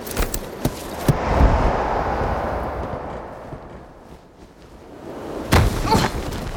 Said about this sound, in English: That was a pretty rough landing.